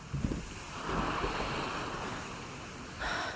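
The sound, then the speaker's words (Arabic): Sea waves crash against the rocks below the Raouché corniche in Beirut as wind blows, making a steady, rushing roar that swells in a few surges, with no voices. “تأملت البحر من الحفة العالية، شافت الموج عم يضرب بالصخر، حست بالهواء عم يلعب بفستانها”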